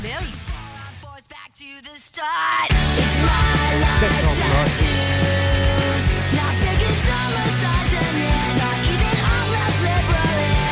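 Loud live punk rock comes from an all-female four-piece band from San Pedro, Los Angeles, playing at a festival. A brief, sparser opening gives way to dense, driving distorted guitars, bass and drums.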